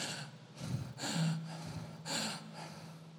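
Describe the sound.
A voice imitates someone struggling to breathe with a burning stomach: a few harsh, strained gasping inhalations with a rough voiced edge, separated by short pauses.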